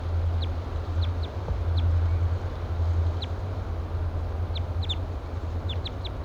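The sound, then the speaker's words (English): A wild bird gives flight calls while being watched. Many short, high chirps come at irregular intervals, some in quick clusters, over a steady low hum with no talking. “Giving louder flight calls now.”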